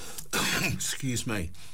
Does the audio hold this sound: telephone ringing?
no